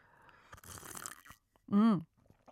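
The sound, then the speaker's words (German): A sip of hot milk with honey: a short airy slurp followed by a brief voiced hum. “jetzt muss ich erst mal kurz von meiner heißen Milch mit Honig trinken.”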